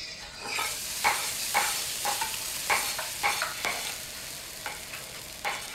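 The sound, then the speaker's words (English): Onions sizzling in hot oil in a pan for adobo, a steady bright hiss broken by many soft scraping stirs of a wooden spoon, fairly quiet and with no talking. “You're going to put the onions in.”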